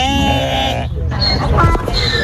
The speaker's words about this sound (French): Et maintenant donc, des brebis à Rancha Curuchari.